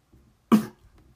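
A single short cough from someone whose throat is getting dry, one abrupt burst followed by faint throat noises, otherwise quiet.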